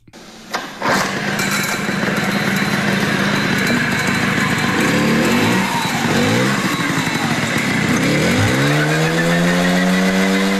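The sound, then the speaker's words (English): Engine of a 1979 Jialing CJ50 motorcycle starting with a sharp catch, then running with a steady, buzzy, high-pitched drone, with revs dipping and climbing a few times and a final rising rev near the end. “what does the 1979 version of the Jialing CJ50 sound like? And this is it.”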